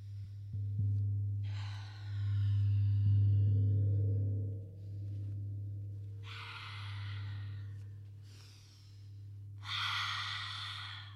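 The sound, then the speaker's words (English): Forceful, breathy lion's breath yoga exhales with the tongue sticking out: a few long hissing bursts separated by pauses, fairly faint, over a steady low hum. “Maybe sticking out the tongue for lion's breath.”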